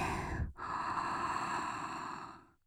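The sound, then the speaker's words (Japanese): A deep breath drawn in as a long, airy rush. It breaks off briefly near the start, then stays steady for about two seconds before fading out, with no talking. “息を吸って”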